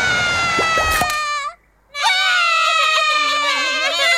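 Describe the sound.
A baby crying loudly in high, wavering wails that come in two bouts split by a short silent pause, the second bout longer and more strained.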